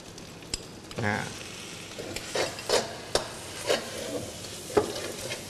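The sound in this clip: Dried shrimp sizzle in a frying pan as they are stirred, with a steady crackle of hot oil and a few scraping strokes of a utensil against the pan.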